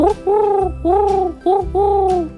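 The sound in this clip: A human voice imitates a wood pigeon's coo in five beats: a short note, two long ones, another short note, then a final long one. The hooting tones are mid-pitched and clear, with no other sounds.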